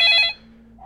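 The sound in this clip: A telephone rings as an incoming call reaches a radio show: one brief burst of bright, trilling electronic ringing that cuts off quickly, leaving a faint low hum.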